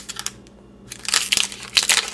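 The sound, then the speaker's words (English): Crinkly rustling as a wrapped pack of nine baseball trading cards is torn open, with a few sharp crackling bursts of plastic wrapper separated by a quieter pause, no voices. “All right, let's open this one up, see what we get here in this pack of 9 cards”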